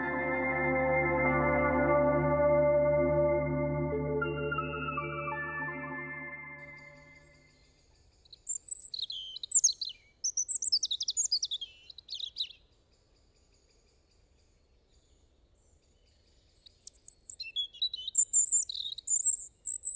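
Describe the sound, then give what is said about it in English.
Robin song comes in as a few bursts of high, quick, twittering phrases with gaps between them. It follows a sustained low harmonic tone that fades out first. “And some scientists believe that robins sing simply because they enjoy it. And that's lucky for us because we enjoy it too. Their sweet song is an uplifting listen”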